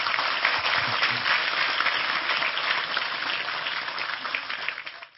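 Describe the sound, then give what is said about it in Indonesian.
An audience at a religious study gathering gives sustained applause, with dense, steady clapping that gradually tapers off and stops at the end. “Sekali lagi tepuk tangan lebih keras untuk Tejo.”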